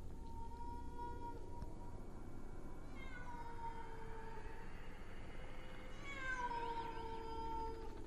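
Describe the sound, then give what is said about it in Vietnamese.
Stray cats yowling outside at night, with long wavering cries that rise and fall in pitch. The calls are fairly quiet and sit over a constant noisy background. “Ở bên ngoài, tiếng của bầy mèo hoang cứ kêu lên.”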